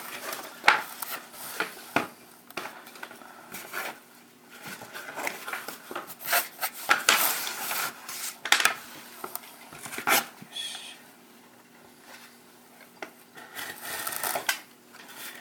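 A small utility knife slices through cardboard parts, producing irregular scratchy, crunching cuts in short bursts separated by quiet pauses.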